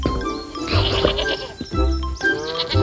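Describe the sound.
Sheep bleating, a mother ewe and her lamb, in a few wavering, nasal calls that overlap and swell in loudness, with no speech.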